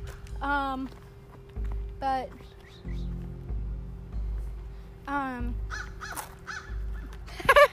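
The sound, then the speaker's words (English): Harsh crow caws: a few loud, raspy calls spaced several seconds apart, each dropping slightly in pitch, standing out over a quiet, low background. “there's an annoying bird in the background, sorry. Stop it!”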